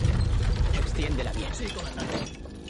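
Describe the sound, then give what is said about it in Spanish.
Mechanical ratcheting clatter as a wheel is turned to tension a chain on a large crossbow atop a fortified wall, with dense, rapid clicks and a loud grinding rumble throughout. “gira una rueda y tensa una cadena”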